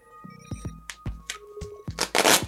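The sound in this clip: A bundle of bottles wrapped in terry cloth and white duct tape is unwrapped with a few soft crackles and scrapes, ending in a louder ripping tear of tape.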